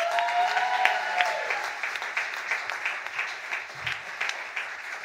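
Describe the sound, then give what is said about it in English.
Audience applause greets a comedian introduced at a stand-up comedy show in Atlanta, steady dense clapping that continues throughout and eases slightly toward the end. “Please make some noise for Yanni.”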